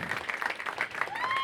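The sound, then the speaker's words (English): Audience applause greets a film director being introduced on stage, a dense and steady wash of clapping that holds throughout without letting up. “Give it up for F. Gary Gray right now.”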